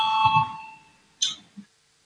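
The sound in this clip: A parliament chamber's voting bell gives a ringing electronic tone that fades away, followed by a couple of brief, sharp clicks.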